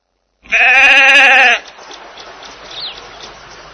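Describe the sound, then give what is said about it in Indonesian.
A single loud sheep bleat, a harsh, buzzy, wavering cry lasting about a second, then quiet background noise. “Suara apakah ini? Ini adalah domba.”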